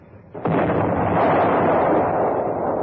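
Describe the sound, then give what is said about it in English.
A naval deck gun fires a high-explosive round aboard a boat. A single sharp, heavy boom hits suddenly and then becomes a loud, sustained rolling roar that fades only slightly. “Number 1 gun fired, sir.”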